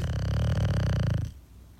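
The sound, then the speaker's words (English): A sleeping dog snores: one long, low, rattling breath that cuts off abruptly, leaving near quiet. “That's the dog. That's definitely the dog.”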